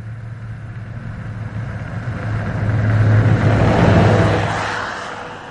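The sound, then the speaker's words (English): Oversnow vehicle engine noise in Yellowstone National Park: a steady low mechanical drone that swells louder in the middle and then eases off. “wanted to know more about the impacts or the effects of oversnow vehicle noise on the park, not only on the natural soundscape, but on visitor experience.”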